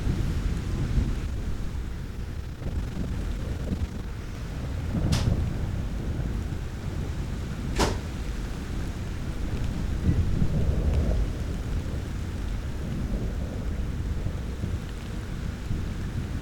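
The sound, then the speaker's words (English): A thunderstorm with steady, dense rain hissing throughout and low rumbling beneath. Two sharp thunder cracks break through partway along. No voices are heard. “This storm happened on June 7th this year.”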